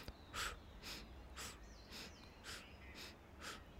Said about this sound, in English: Bringing in the Shukha Shunya 8-part breath. 8 inhales, alternating between nose and mouth.